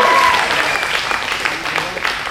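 Audience applause at a live show's intermission: dense, steady clapping from many people, loudest at the start and easing off slightly toward the end.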